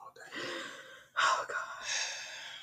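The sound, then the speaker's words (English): A deep breath drawn in as a breathy rush of air, with a sharper gasping inhale near the middle standing out above the softer, steady breath noise. “You can keep your deep breath. It's not needed.”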